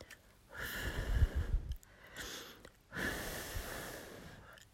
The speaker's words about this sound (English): Here, can I soothe it? Let me blow on it.